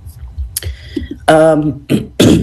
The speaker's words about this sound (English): Now that I have a lozenge in my mouth, hopefully I won't be coughing into the microphone. I apologize for that.